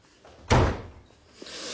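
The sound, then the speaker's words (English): A door to a preparation room being shut: a single loud thump with a brief rattle, followed by faint, quieter room sounds. “Capes made his way to the preparation room and shut the door.”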